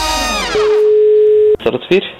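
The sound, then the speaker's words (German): A steady telephone line tone sounds as a call is placed, one unbroken mid-pitched tone lasting about a second. A short burst of music comes before it, and a brief voice follows. “Zeit, dass wir mal schnell raus telefonieren.”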